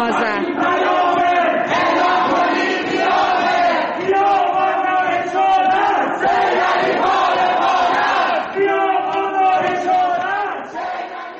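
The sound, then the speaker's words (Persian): A protest crowd in Ekbatan, Tehran, chants slogans at night, many voices shouting together in a loud, steady, rhythmic cadence that continues without a break. “اما شب گذشته ما شاهد یک سری اعتراضات در شهرک اکباتان تهران بودیم. مردم شعارهایی سر دادن که بد نیست صدای اونها رو هم بشنویم.”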